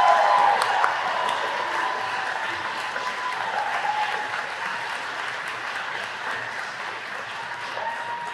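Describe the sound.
An audience of Darden class of 2022 graduates welcomes a speaker with dense, steady applause that is strongest at the start and slowly eases over several seconds.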